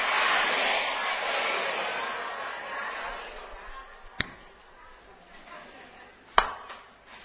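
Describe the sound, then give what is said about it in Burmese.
Two sharp, isolated hand claps come about two seconds apart, following a fading noisy background. “လက်ခုပ်တီးတဲ့အသံဟုတ်ပြီနော်အရင်ကလက်ခုပ်တီးတာမမြင်ဘူးပဲနဲ့လက်ခုပ်တီးတာလို့ပြောလို့ရမလား”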